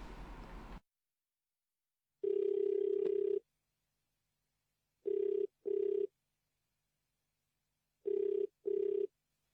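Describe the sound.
A telephone line rings before voicemail picks up: one long, steady low tone, then two pairs of short double rings with silence between them. A brief burst of noise comes before the first ring.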